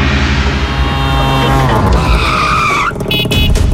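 Tuk-tuk engine roaring loud and steady alongside squealing tires, with a high screech climbing in pitch near the end before breaking off.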